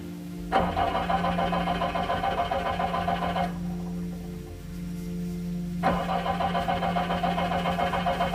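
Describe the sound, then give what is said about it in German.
Car engine giving a hoarse, rattling drone in two long bursts, with a quieter stretch between them as the rough churning fades and then returns. “Der Wagen gab nur ein heiseres Röcheln von sich.”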